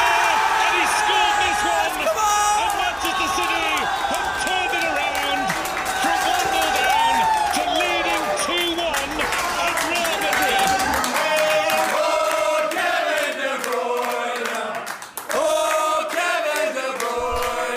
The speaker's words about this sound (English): went to the pub, and this was a bit of the reaction to Kevin De Bruyne's goal.